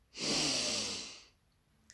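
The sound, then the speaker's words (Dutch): One long, deep breath during a guided breathing exercise: a loud, airy rush lasting about a second that fades out, then quiet with a faint click. “Dus adem diep in. En diep uit. Adem diep in.”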